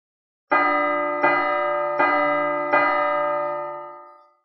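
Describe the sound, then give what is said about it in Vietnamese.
A giant ancient bell struck four times by hand at an even, unhurried pace. Each strike is loud and metallic with a rich ringing hum that carries over into the next, and the final tone fades out slowly. “Liên tục 4 tiếng chuông, thêm vào 2 tiếng trước, tổng cộng là 6 tiếng.”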